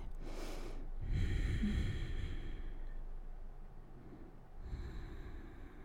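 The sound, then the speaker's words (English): Deep belly breathing during a yoga workout: slow, soft, airy inhales and exhales that come and go in a few long, quiet breaths with no talking. “Relax your head and breathe. Bottom belly breaths.”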